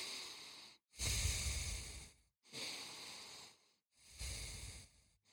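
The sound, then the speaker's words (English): Deep breathing, three long, slow breaths of soft rushing air, each lasting over a second with short pauses between; quiet and free of talk. “Okay, let's all just take a couple deep breaths.”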